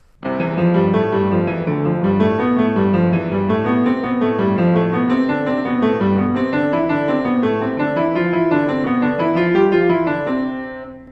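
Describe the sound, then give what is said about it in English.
Piano playing the first Hanon exercise in C major, a repeated pattern of notes that climbs and falls in an even, steady rhythm. The playing is continuous and fairly loud, with no voices. “Well, the Hanon exercises start off with 20 exercises, all in C major, and they're repeated patterns. I think the first one sounds like this.”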